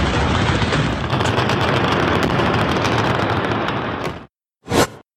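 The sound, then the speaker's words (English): Dense, sustained gunfire and crackling blasts from a Turkish attack on the Syrian border town of Tal Abyad, a continuous barrage that cuts off abruptly and is followed by one short, sharp burst. “This video, obtained by ABC News, appears to show the fury of the Turkish attack on the border town of Tal Abyad 2 nights ago.”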